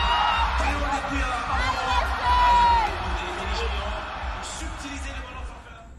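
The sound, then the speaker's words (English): Football spectators cheering at the AFCON tournament in Abidjan, a dense, loud, continuous crowd roar full of shouts, whoops and voices that holds steady throughout. “And that leaves us, the audience, the spectators. And as anyone who has ever been to this continent knows, spectators here never keep quiet.”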